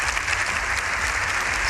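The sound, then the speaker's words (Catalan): Dense, steady applause fills the Congress of Deputies after Pope Leo XIV's speech, a continuous wash of many clapping hands with no pause. “al matí el protagonista han sigut aquests aplaudiments.”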